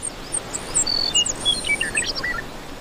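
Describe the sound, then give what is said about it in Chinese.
Bluebirds call as they push their fledglings from the nest, giving many short, thin, high-pitched chirps and tweets scattered over a steady soft hiss. “到了离巢飞翔的时刻，青鸟们必须逼迫幼鸟在这个季节飞出巢。”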